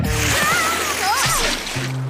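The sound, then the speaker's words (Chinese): Water sprays from a hose and splashes in continuous, loud sloshing, while a voice cries out over the spray. “收起你的水管，我可不想被喷湿了。 放心啦，它不会喷水，除非我这样叫。”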